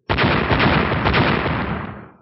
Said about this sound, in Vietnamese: Ba tiếng nổ lớn vang lên, ba quả cầu lửa đánh chuẩn xác vào giữa đám trùng vân